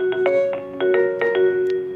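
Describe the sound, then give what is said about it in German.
A telephone ringing at a trade union's headquarters office in London: an electronic, warbling ring of bright tonal pulses repeating several times a second, continuous and alone throughout. “bei der im Moment ziemlich oft das Telefon klingelt”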